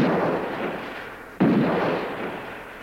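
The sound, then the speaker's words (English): Two gunshots ring out over a field. The first is already booming and fading at the start, and the second cracks in sharply midway. Both are loud, deep reports with long rolling decays. “As it disappeared, two shots rang out.”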